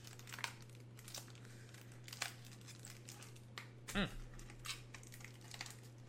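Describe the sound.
Crinkling packaging as trading card boxes are torn open: many short, faint crackles and rustles in irregular rhythm, with a few slightly sharper tearing snaps.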